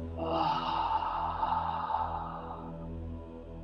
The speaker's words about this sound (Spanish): Inhala profundo. Lleva el aire al rombo y exhala con intención.